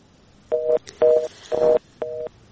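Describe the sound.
Telephone line tones play as a radio show caller's call drops: a quick, even busy-signal pattern of four short, steady two-note beeps, with a fifth starting at the end. No talking is heard.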